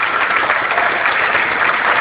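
Applause from an audience at a presentation of a provincial program: a dense, continuous clatter of many hands clapping that holds an even, full loudness throughout, with no voices over it.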